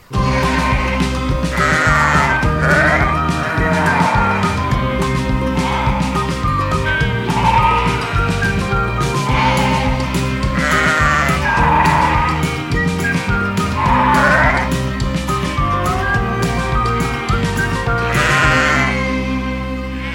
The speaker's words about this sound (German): Welches Tier suchen wir? Ich sag es dir. Es ist das Schaf.